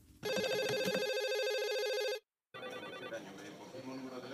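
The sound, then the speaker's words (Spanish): Electronic telephone ringing as an emergency call comes in to a medical emergency switchboard: one loud, sustained ring of about two seconds, a brief silence, then more ringing tangled with busier background sound. “Al filo del mediodía del 17 de mayo de 2023, una llamada entró a la centralita del Servicio de Emergencia Sanitaria 112 de Andalucía.”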